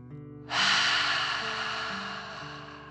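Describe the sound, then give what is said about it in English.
A forceful dragon-style breath: one long, loud rushing exhale bursts in abruptly and slowly fades, over faint low steady tones. “And then breathe out, pretending fire is coming out of your mouth. Ready? Breathe in and out.”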